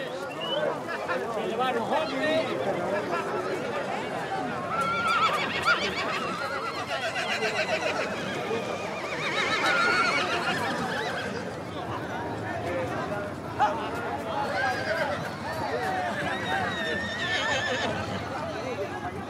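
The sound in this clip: Mares neighing in repeated whinnies over a dense, steady bed of sound, with people talking throughout.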